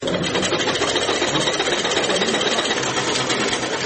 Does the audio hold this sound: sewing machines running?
yes